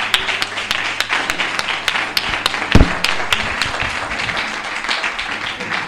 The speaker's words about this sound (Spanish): Venga, ese aplauso a estas tres chicas.